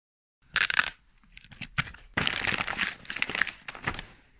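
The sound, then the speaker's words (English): Wrapping paper crinkles and sellotape rips as things are wrapped, heard alone as a few bursts of rustling and tearing with short pauses between them. “Do you recognise that sound? That was the sound of sellotape and wrapping paper.”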